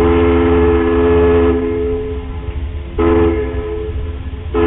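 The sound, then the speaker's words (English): Deep harmonic horn signal of a ferry coming into dock on Puget Sound, sounding a little melody of one long and two short blasts. The loud, sustained tone shifts between held notes. “That little melody was the sound of a ferry coming into dock.”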